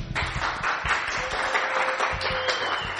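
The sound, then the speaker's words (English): A church audience applauds during worship, a dense, continuous patter of many hands clapping at a fairly even level throughout. “praise the Lord. Give the Lord a cheer.”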